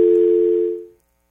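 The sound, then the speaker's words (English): A telephone dial tone after a caller has been cut off: one steady, continuous electronic hum that holds evenly, then fades away about a second in, leaving silence. “The caller's been cut off, I think.”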